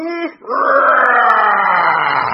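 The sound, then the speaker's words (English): A voice imitating a large dragon breathing out fire: a brief voiced grunt, then a long, loud, strained roaring exhale held steady, its pitch sagging slightly toward the end. “a large dragon flew up. It took an enormous fiery breath.”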